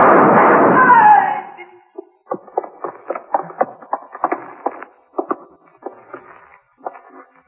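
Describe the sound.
Gunshots ring out during a police confrontation in a radio drama: a loud sustained blast opens, then many shorter sharp reports follow in an uneven string.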